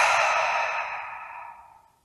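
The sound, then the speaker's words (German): A deep breath flows out through the mouth during a guided breathing exercise. The breathy exhale starts strong and tapers smoothly to silence over about two seconds, heard alone. “Und dafür nehmen wir jetzt drei ganz tiefe Atemzüge durch die Nase ein und durch den Mund aus.”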